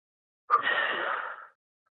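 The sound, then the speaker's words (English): A single deep breath lasting about one second, an airy rush that starts abruptly, holds steady, then tapers off into silence, with no voices. “Okay, 1, 2, 3, deep breath in. And light, and release.”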